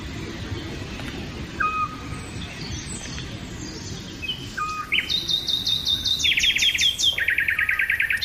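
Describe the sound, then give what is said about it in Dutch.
Eurasian scops owl calling in southern France: a few short, soft whistled notes spaced seconds apart over a constant insect-like hiss, with higher, rapid chirping calls joining in later. “En hoort ter hoogte van Cardet in Zuid-Frankrijk het hypnotiserende geluid van de dwergooruil.”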